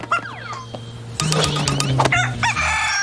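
Rooster crowing alongside clucking chickens: a few short clucks first, then a loud, harmonic, strained crow starts about a second in and carries through to the end, with more clucking bursts near the close.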